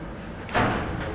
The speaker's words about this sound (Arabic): اقفل الشباك.